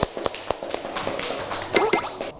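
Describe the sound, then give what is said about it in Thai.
Children clapping in a classroom, a scattered run of sharp, irregular hand claps rather than a dense burst of applause. “เยี่ยมมากอ้าวปรบมือให้พี่จิงโจ้หน่อย”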